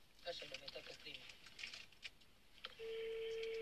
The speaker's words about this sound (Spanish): Está llamando. Se viene, se viene.